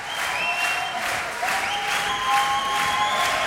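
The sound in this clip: Audience applauding for more after a musical performance. The clapping is steady, dense and sustained throughout, with faint high whistle-like tones above it.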